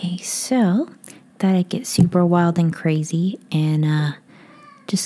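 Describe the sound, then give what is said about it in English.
A pet cat meows a few times in high, rising and falling calls, alternating with a person talking over the same stretch. “yes, that was my cat, Oscar von Bjerrison”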